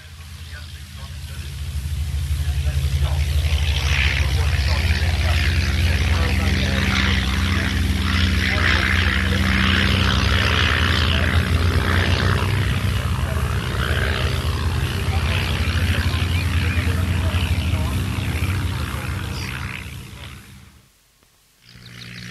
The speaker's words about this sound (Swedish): Nu ska vi lyssna till SK-11 Tiger Moth, vackert röd och gulmålad